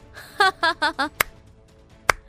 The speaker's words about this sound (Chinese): 江天林轻轻拍了拍手掌说道